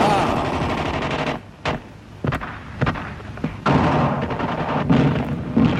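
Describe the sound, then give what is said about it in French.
Heavy gunfire from German bullets in 1944, loud dense bursts of rapid machine-gun fire broken by a few short pauses, each gap followed by a fresh sharp volley. “vous avez dit ben en le 44, bruit, le bruit des balles allemandes”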